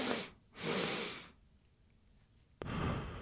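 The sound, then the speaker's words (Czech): Breathing through the nose as a calming physiological-sigh technique: a short inhale followed by a longer second inhale, then a quiet pause before another sustained breath begins. “A funguje to nějak takhle. Já se na dvakrát nadechnu nosem”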